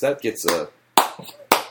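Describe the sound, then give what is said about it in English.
Slow handclaps ring out as two sharp, separate claps about half a second apart, following a brief stretch of voice. “That gets a slow clap out of the Ball Move headquarters. A single slow clap.”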